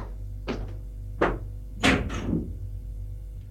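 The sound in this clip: A door is opened after the doorbell rings. A few dull knocks and clunks of handling sit over a low steady hum, with the loudest pair close together in the middle.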